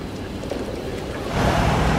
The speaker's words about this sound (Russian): По дороге проносятся автомобили.